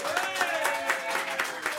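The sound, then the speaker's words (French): Studio audience applause on a French television game show, a brief, even burst of clapping with voices mixed in throughout. “Comme c'est bien dit, on applaudit, Tintin.”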